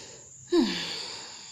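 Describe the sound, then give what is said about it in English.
A deep breath, one sudden, strong inhale that starts abruptly and then trails off slowly over about a second. “I just took a deep breath.”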